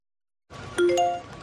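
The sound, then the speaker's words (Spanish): A Securitas Direct security system notification chime for a person detected in the garden: a bright two-note electronic ding, a lower tone followed by a higher one, ringing clearly after silence. “Notificación Securitas Direct. Persona detectada en el jardín.”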